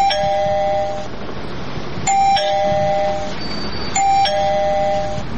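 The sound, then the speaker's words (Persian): An electronic doorbell chime rings three times at a house door, each a bright tonal ding with steady sustained notes. The rings are evenly spaced and clear, with no talking. “وی راستی این زنگ دارن.”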